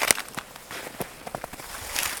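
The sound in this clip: Footsteps of a hiker climbing a forested mountain in crisp, cold winter air come as an uneven series of soft, crunching steps, fairly faint, with no voices.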